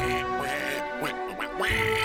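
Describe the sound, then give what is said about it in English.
A giant purple polka-dotted duck quacks a few times, loud, nasal and wavering in pitch, with no talk. “It's a giant duck! It's purple polka dotted!”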